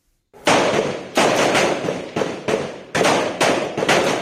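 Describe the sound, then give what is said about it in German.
Rifle shots ring out at a Taiwanese reservists' refresher drill, with young men in camouflage lying prone in a row and firing at a target. Many sharp, loud reports follow at irregular intervals, and each one trails off in a brief echoing decay. “In Tarnanzügen liegen junge Männer in einer Reihe auf dem Boden und schießen auf ein Ziel. Auffrischungsübungen für taiwanische Reservisten.”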